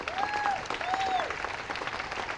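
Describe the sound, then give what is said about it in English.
Applause at a community gathering, a round of thanks for the organisers: soft, steady clapping from a crowd, faint overall, with a few brief tones over it. “Another big round of applause for them for their efforts.”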